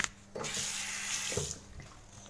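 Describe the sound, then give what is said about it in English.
Tap water runs into a sink for hand washing: a steady, bright rush of water that swells, holds for about a second, then drops back to a softer trickle. “I'm gonna wash my hands.”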